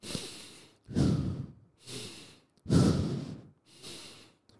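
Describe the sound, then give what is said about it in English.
Breath-work breathing, five strong breaths in a steady, continuous cycle that alternate between louder, fuller breaths and softer ones, with only brief gaps between them and no speech. “And then when you breathe, this is breath work. Okay, when you breathe, you shouldn't have any unnecessary pauses. So you breathe like that.”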